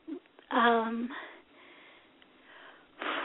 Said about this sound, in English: nice deep breath